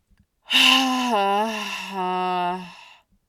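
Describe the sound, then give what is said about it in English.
A loud, voiced exhale through the mouth, part of a calming breathing exercise for anxiety, sounds as one sustained sigh-like tone that holds for about two and a half seconds, wavers slightly in pitch, then fades out. “What I would encourage is, with that exhale, especially for my women out there, make a noise out of your mouth. So it could look like this.”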